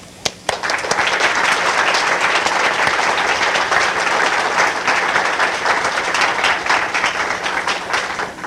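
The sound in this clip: An audience at Rare Book School applauds to welcome a lecture speaker. A couple of sharp early claps swell into loud, sustained, even applause that carries on to the end.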